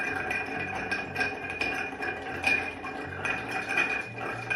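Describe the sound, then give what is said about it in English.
A drink mixture being stirred, with many light glassy clinks and clicks at an uneven rhythm, soft and close, over a faint low background. “And then we're going to stir this.”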